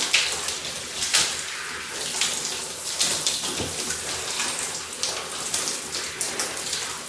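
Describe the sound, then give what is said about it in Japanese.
Shower water pours over hair as shampoo is rinsed out. It makes a steady, hissing splash, broken by irregular louder gushes and spatters throughout. “で、ゴシゴシが終わったので今からシャンプー流していきます。”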